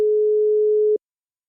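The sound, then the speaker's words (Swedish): A telephone line tone after dialing a number sounds as a single steady mid-pitched beep lasting about a second, clean and loud, then cutting off into silence. “Jag slår in numret.”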